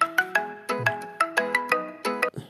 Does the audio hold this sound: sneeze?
no

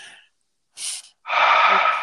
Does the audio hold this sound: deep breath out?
yes

